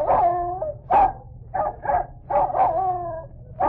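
A pet dog yelps and whines in a recorded run of several short barks and drawn-out, howling cries. The sounds are loud and clear, with no talk over them.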